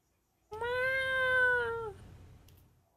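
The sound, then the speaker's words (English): A cat gives a single long, drawn-out meow, loud and clear with a steady tone that dips slightly as it ends, followed by near silence. “CGI cats, my only weakness.”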